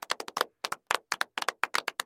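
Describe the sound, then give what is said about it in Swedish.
A short run of hand claps greeting a newly introduced colleague: sharp, separate claps in uneven clusters with brief gaps between them, sounding like only a couple of people clapping. “Applåd till honom.”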